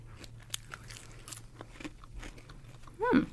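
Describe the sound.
Faint crunching as bacon-flavoured vegetarian crisps are bitten and chewed: scattered soft, crackly crunches over a quiet background, with a short hummed sound near the end.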